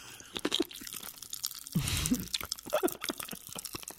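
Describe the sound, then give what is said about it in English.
Pop Rocks mixed with crunchy candy crackle and crunch while being chewed. Quiet, irregular snaps and crunches are scattered throughout, with a denser, louder burst of crunching in the middle. “There it is. Can you hear that? Yeah. I haven't had Pop Rocks in forever.”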